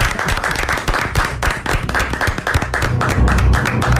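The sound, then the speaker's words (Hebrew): Audience applause at a Torah quiz event: a dense, loud wash of many hands clapping that holds steady and unbroken from start to finish. “אני הייתי מציע שנפתח במחיאות כפיים.”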